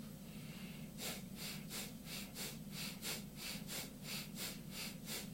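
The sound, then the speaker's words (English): Mild bhastrika breathing, a yogic exercise of forceful inhales and exhales from the stomach: after a brief quiet start, many rapid, even breath bursts follow in a steady rhythm over a low constant hum. “And now the last round is a bhastrika, mild bhastrika. And it's like this.”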